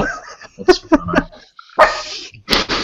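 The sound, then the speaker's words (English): A pet dog barks indoors during a tabletop game session, letting out several sharp, high barks in an uneven series, with people's voices mixed in between. “Do you know what Ruby's barking at”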